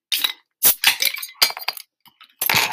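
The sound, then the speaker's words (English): A beer being cracked open: a few sharp clinks and snaps with fizzing bursts between short silences, fairly loud and clear. “So let's crack the beer.”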